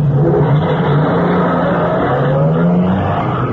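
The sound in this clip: A car drives off with a loud, continuous engine drone whose tone climbs and shifts unevenly as it pulls away; no one speaks.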